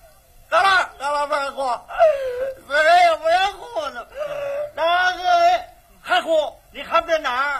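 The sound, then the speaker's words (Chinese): A person wails loudly in a theatrical, tearless display, with many drawn-out voiced bursts whose pitch wavers up and down, separated by short breaths. “这叫哭吗？ 啊， 这不叫哭， 那叫 嚎。 哦，这叫嚎。 干打雷不下雨， 嗯， 光有声音不叫眼泪”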